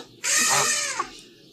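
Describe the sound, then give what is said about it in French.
A goose honks once: a loud, harsh, nasal call that lasts well under a second and ends with a short lighter note. It stands out above a quiet background. “Les oies sont là.”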